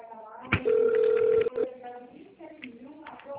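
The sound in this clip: A single electronic ring tone sounds on a phone line while a call is being transferred, steady and clear for about a second before a voice follows.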